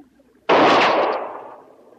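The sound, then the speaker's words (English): A single pistol shot, heard alone. It is a sudden, loud crack that dies away over about a second. “I'm just trying out my arsenal. That was my pistol.”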